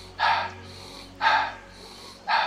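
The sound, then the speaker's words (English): Three loud, airy breaths, evenly spaced about a second apart with quiet between them, demonstrate a guided belly-breathing pattern of in through the nose and out through the mouth. “We will exhale and then it will be an in nose out mouth breath pattern, which will sound like this.”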